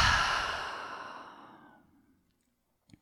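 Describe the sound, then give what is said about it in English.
A single deep exhale through an open mouth during a guided breathing exercise, breathy and fairly loud at the start, then fading steadily over about two seconds into silence. “Let's take a real deep breath into that place. Inhale. Open mouth. Exhale.”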